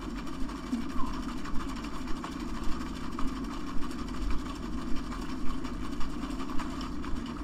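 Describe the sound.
A blender flash-blends an ice cream cocktail containing raw egg with a steady, droning motor whir and faint regular ticks running throughout.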